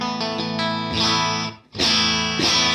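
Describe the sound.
Clean electric guitar tone with a slight harmonic distortion, giving rich upper overtones. Several sustained chords ring out, briefly drop away near the middle, then return with a loud new chord.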